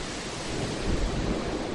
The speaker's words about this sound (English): And you can see behind me, those waves are still crashing ashore.